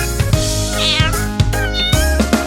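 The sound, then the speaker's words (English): A farm cat meows a few times, high, gliding cries set over loud, rhythmic children's music with a steady beat. “The cat on the farm goes meow, meow, meow all day long.”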